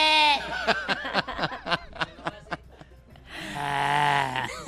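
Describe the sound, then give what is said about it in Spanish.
A father imitates a goat's bleat with his voice, giving a wavering call broken into quick pulsing bursts, followed by a longer sustained vocal note. “¿Quién es el sonido del chivo? Pues el papá. Ah, es que no, me lo estaban tapando, pero... ¿Cómo hace el chivo?”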